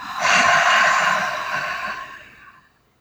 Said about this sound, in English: we're going to start our tap as we do each time with three deep grounding breaths. So inhale. Exhale.